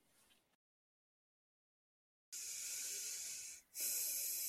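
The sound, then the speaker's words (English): Deep breathing during a pause in conversation: a short soft breath, a stretch of silence, then two long, loud, rushing breaths of air separated by a brief dip. “We both pause and breathe so deeply.”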